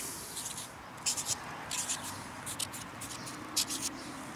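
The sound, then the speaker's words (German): Faint scratchy writing strokes as a signature is inscribed on a stove tile, heard as several short, rough bursts of scraping spread across the moment. “Jetzt darfst du auf die andere Seite schreiben.”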